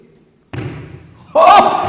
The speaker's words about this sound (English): Oh! Oh, dear me! It really bounces.